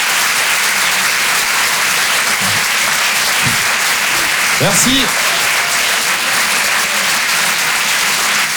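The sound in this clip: Audience applause for a comedian at a live stand-up show, a steady, dense wash of clapping that holds evenly throughout, while a single voice briefly speaks near the middle.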